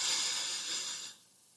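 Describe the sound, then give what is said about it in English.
A person breathes during a guided relaxation exercise, giving a soft, airy hiss that holds steady for about a second before fading away to near quiet. “Breathe in. Breathe out. Breathe in.”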